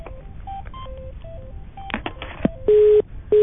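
Telephone keypad tones as a number is dialed: a quick run of short beeps at varying pitches, then a few clicks and two longer steady tones.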